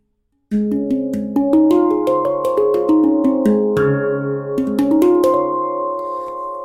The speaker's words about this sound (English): So it sounds like that. It's closely related to like a steel drum kind of thing. So it's made out of metal, and you play it with your hands, your fingers on these notes,